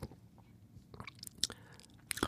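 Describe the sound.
Lip smacks: a few soft, wet mouth clicks, quiet and brief, spaced irregularly with near silence between them and no talk.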